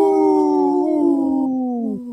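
A wolf howling: one long, sustained, tonal howl that glides slowly downward in pitch over about two seconds, heard alone.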